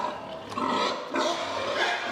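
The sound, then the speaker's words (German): Grunting and squealing of young sows in a pig herd at feeding time, kept in individual feeding stalls; a dense, rough, continuous din of many animals that swells louder at a few points. “In dieser Herde sind viele junge, ungestüme Sauen. Deshalb sind sie beim Fressen in Einzelboxen.”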